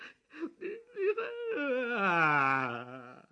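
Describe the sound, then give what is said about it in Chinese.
A man cries, with a few short broken sobs followed by a long, drawn-out, wavering wail that fades out. The crying is fairly faint. “我说你怎么回事？哎， 你哭什么呢你？”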